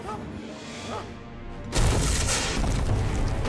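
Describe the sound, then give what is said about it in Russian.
Heavy blows strike a wooden front door of a hut, shaking it. Quiet noise gives way midway to one sudden, loud impact, and a dense, heavy rumble continues to the end. “Входная дверь содрогается. Еще один удар по двери.”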